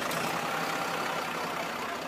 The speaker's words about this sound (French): Tiens, bah, voilà le bus. Ils montent dans le bus scolaire et arrivent au collège.